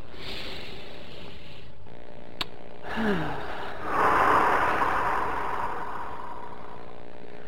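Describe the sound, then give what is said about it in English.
A single slow, deep breath drawn in and released as a soft, airy rush that swells and fades over a couple of seconds, with a faint steady hum beneath and a brief click shortly before. “And take a deep breath.”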